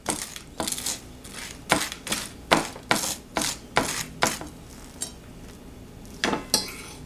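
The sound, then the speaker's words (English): A utensil mashes avocado slices onto toast, producing many sharp metallic taps and scrapes in an uneven rhythm, with short pauses between strokes. “All right, so I'm gonna make some avocado toast with this. Put on the slices here. So I just mash it in there.”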